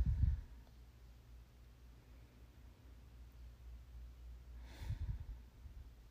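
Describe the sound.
Slow, deep breathing: two faint, low, airy breaths about five seconds apart, with quiet hiss in the gap between them.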